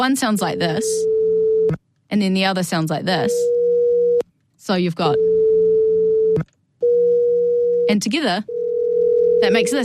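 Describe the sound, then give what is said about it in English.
Two pure telephone-style sine tones, one slightly higher than the other, sound first one at a time and then together as a beating ring. Several steady held stretches of about a second each alternate with a person talking. “So one is 440 hertz and one is 480 hertz.”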